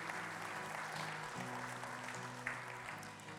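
Faint, steady applause from a church audience welcomes a woman to the stage at a morning service, a continuous patter of clapping that neither builds nor fades across the short stretch.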